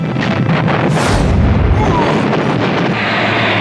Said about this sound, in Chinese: 为了驱走敌人，我们不得不在自己的土地上开火，这就是换取自由的代价。